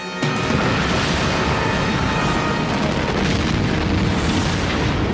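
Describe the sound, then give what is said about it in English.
A warship exploding in battle: a sudden onset leads into a loud, sustained roar of blast noise with heavy low rumble, holding steady for about five seconds. “But the Roanoke explodes. The battle is over.”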